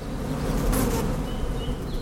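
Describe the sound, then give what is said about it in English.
Honeybees and a bumblebee buzz inside a box during bee hunting with a biologist, a dense, steady insect drone that holds at an even loudness throughout. “1, 2, 3 honeybees in the box and a bumblebee, which was caught just for fun.”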